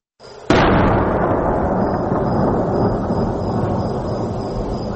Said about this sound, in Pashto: د ډی سي توپ لوی فیرونه ښار لړزوي.